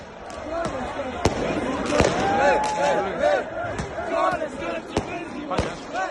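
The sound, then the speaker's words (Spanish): Crowd celebrating in Sarajevo after Bosnia qualified for the World Cup, with voices shouting and chanting together. Several sharp firecracker bangs punctuate the noise throughout. “Sarajevo celebrando el pase de Bosnia al Mundial.”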